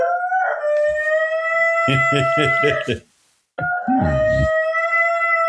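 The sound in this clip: A lonely dog howls in long, sustained, wavering tones, interrupted by a run of shorter pulsed cries and a brief silence before the howling resumes.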